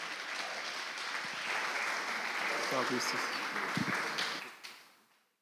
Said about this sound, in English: Can you all put our hands together and welcome Stan, even as he comes to share God's word?